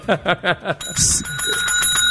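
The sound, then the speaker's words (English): A bell is rung once right after a short burst of speech. Its bright, high metallic tone rings on steadily and slowly fades. “y'all done brought a bell in here, and I can just...”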